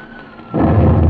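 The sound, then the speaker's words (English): Anti-aircraft gunfire effect from a radio drama: after a quiet opening, a sudden loud, heavy booming rumble breaks in about halfway and carries on steadily to the end. “I think we'll open up on them any second now. Open up? Yes, our anti-aircraft.”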